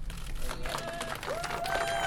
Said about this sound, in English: About 40 local residents cheered as Worcester County District Attorney Joseph Early spoke to reporters.